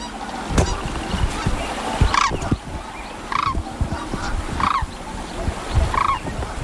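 A pair of sandhill cranes calls in a few short, honking, rattling notes spaced at fairly regular intervals over a steady background hiss.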